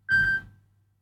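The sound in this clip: A telephone ringing tone while a call is placed: a single brief, steady electronic beep that cuts off quickly, faint and alone.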